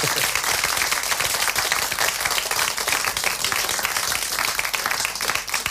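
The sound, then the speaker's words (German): Audience applause at a radio awards ceremony: dense, steady clapping from many hands that carries on without a break from start to end, with no voices over it. “Ein Applaus bitte nochmal.”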